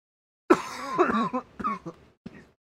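Coughing and throat clearing from someone with energy drink stuck in the throat: a short run of raspy, fairly faint coughs and gravelly throat-clearing bursts, separated by brief pauses, with no talk.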